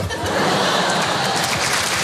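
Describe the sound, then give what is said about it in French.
Audience applause at a live comedy evening show, a dense, even clatter of clapping mixed with laughter that carries on loudly throughout. “Si vous applaudissez à quoi ça sert, on va passer une soirée exceptionnelle, faites-moi confiance.”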